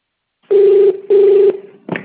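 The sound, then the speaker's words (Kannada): Telephone keypad tones sound on an automated subscription-offer call: two loud, steady, mid-pitched beeps of equal length separated by a short gap, followed by a brief, harsher burst. “ಈ offer ಅನ್ನು subscribe ಮಾಡಲು ಯಾವ ಕೀಯನ್ನು ಒತ್ತಿ?”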